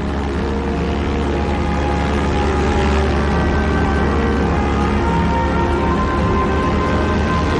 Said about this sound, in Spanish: En otro momento, una avioneta sobrevuela la isla, descendiendo cada vez más,